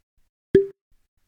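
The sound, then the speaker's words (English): A bottle of spirits from a Milwaukee distillery is popped open: one sharp, high-pitched pop with a brief ringing tone, then silence. “I'm gonna pop the bottle.”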